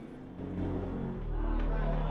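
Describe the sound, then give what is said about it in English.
A car swerves onto a slip road for Manchester, its low engine drone humming and growing louder as it turns, with faint voices underneath. “The car swerves onto a slip road for Manchester.”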